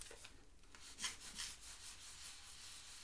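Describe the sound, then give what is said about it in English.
Myrrh soap being rubbed onto something makes faint, soft scraping strokes, a few brief bursts of friction with quiet gaps between. “I'll just rub a bit of my myrrh soap on it.”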